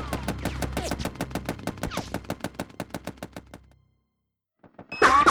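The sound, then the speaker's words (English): Sustained automatic gunfire: a long, rapid string of loud, evenly spaced shots rattles on for several seconds, then stops and falls silent before a short harsh burst of noise at the very end. “I can't even get a shot in like this. The second he stops firing, then take him out.”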